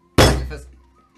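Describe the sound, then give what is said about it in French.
A single heavy thunk of two dice thrown down in a Chohan dice game: one sharp, loud impact that decays quickly into quiet. “2 dés, boum, tu lances, c'est de la chance, pas vraiment de skill”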